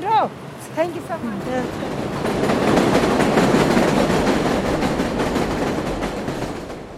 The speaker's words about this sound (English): the overhead elevated train, yes, it's this loud, competes with the languages of over a dozen countries and with the traffic.